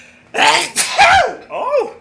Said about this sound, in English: I think that means somebody's going to get sneezed on.